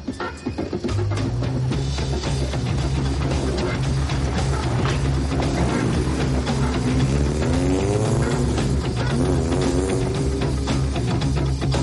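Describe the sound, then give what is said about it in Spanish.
A car engine drives out through an opening gate of a residential plot, a loud, steady rumble throughout whose pitch climbs as it pulls away midway through. “La verja de su parcela se abre y el coche sale.”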